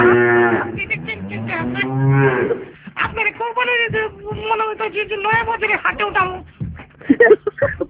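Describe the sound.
A cow moos in a couple of long, drawn-out lowing calls, followed by people talking.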